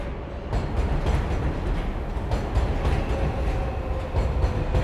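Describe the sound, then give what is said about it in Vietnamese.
A train rolls along its rails on a night journey to Kosugaya in 1946. A steady, dense rumble with wheel clatter runs unbroken throughout, and no voices are heard. “vào tháng 4 năm 1946, bộ ba kỳ lạ này đã lên tàu đêm đến Kosugaya”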